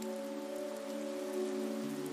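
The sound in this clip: Rain falls on a surface along a street, a steady dense patter of drops that continues evenly throughout. A constant low tonal hum sits beneath it, and no voices are heard.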